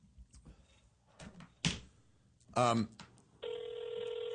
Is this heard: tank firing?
no